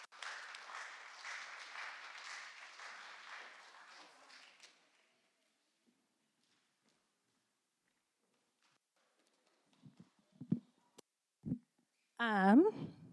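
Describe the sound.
An audience applauds to welcome a speaker at a Pentecost Sunday church gathering, dense steady clapping for about five seconds that tapers off into silence, followed later by a few soft knocks.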